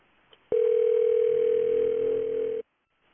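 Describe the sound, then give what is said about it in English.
A telephone rings with a single steady electronic tone that lasts about two seconds and then cuts off abruptly. “Answer your phone.”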